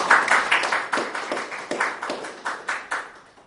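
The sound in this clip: Audience applause welcomes a lecture speaker before a talk on the Haida people of Canada: a brisk run of many sharp, crisp claps that fades gradually toward the end.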